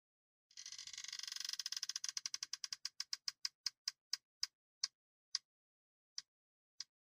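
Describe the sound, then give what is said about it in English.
A prize wheel spins, its pointer ticking in a rapid stream at first. The clicks spread steadily further apart as it slows, ending in a few widely spaced ticks before it stops. “So I have my wheel right here. Let me show people who are watching in Zoom right now. Let me see if you can see it. No, you really can't see it. But I'm going to go ahead and spin it.”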